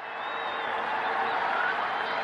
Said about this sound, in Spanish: Esos son las ovaciones y aplausos. Ahora mismo están en la luna.